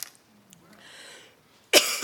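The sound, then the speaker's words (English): A person coughs in one harsh, loud burst near the end, after a stretch of faint breathy hiss. “Sorry, I got a cough.”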